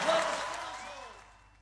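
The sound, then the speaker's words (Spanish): Applause fading out, beginning fairly strong and dying away steadily over under two seconds until only a faint trace remains. “Fuerte ese aplauso.”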